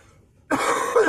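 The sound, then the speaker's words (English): A harsh cough from someone who is still a little sick: one loud, rough burst that breaks a quiet moment and holds for over half a second. “I am still a little sick, so I might cough, grunt, snort, you know, whatever happens.”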